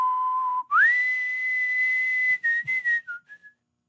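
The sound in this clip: A person whistles a TV sitcom theme tune. A held low note glides up into a long, bright high note, followed by a few short, quick notes that fade out.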